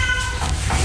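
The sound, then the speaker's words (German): A black one-year-old male cat meowing in an animal shelter's cat house: one clear, tonal, mid-pitched meow opens the moment, followed by softer, rougher vocal sounds. “Das hier, was ihr gerade gehört habt, ist Lucifer. Lucifer ist ein schwarzer, einjähriger Kater, ein richtig schicker Bursche.”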